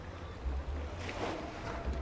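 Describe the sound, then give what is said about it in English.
Shallow water laps beside the old paddle steamboat Eureka, docked at Hyde Street Pier in San Francisco on a brisk Sunday afternoon. A faint, steady low rumble and wind noise run throughout. “It's a brisk Sunday afternoon at Hyde Street Pier in San Francisco. Just past the edge of the dock, an old paddle steamboat called the Eureka bobs in the shallow water.”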